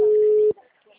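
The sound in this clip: A telephone ringing with no answer: a single flat, mid-pitched ring tone holds for half a second and cuts off, leaving only faint noise.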